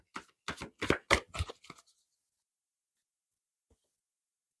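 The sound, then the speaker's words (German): A deck of playing cards is shuffled in a quick run of crisp riffling bursts lasting under two seconds, followed by near silence and a faint tap. “eine Karte fehlt mir noch, die fünfte. Nochmal mischen.”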